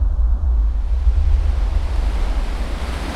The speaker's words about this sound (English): a massive surge of water cascades into the tunnel. The current picks up speed, washing the briefcase downstream.